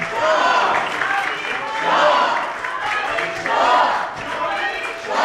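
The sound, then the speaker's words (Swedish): Swedish parliament members rise and applaud Reza Pahlavi. Clapping and crowd noise swell and ease in a few waves, with voices and shouts mixed into the applause. “Nu reser sig alla riksdagsmöter upp och applåderar de som är här och har fått sitt plats.”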